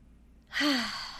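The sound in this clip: A deep breath, heard as a single soft, breathy sigh that swells quickly and then slowly fades, faint and alone with no talking.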